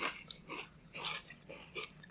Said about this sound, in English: It's savory tomato flavored Pringles. Yeah, but it's still good. It's delicious.